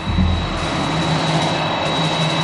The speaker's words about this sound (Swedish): Klockan 11.21, torsdag 14 juni 2001, landar för första gången USAs president på svensk mark. Polisinsatschef Hans Lippens ser Air Force One taxa in på Landvetters flygplats.